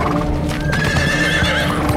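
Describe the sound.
Hooves of horses ridden by soldiers clatter in a loud, dense, steady stream throughout, with a high tonal whinny rising out of the clatter partway through.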